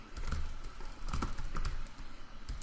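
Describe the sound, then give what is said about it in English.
Many quick, uneven keystrokes on a computer keyboard, clattering in short bursts with brief pauses between clusters of keys. “Oops, I can't type.”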